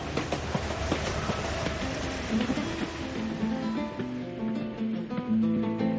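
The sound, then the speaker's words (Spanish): A train speeding along the rails, giving a loud, continuous rumbling roar with rhythmic wheel clatter running steadily throughout. “Más tarde, el tren que ha tomado Mari avanza con velocidad por los raíles.”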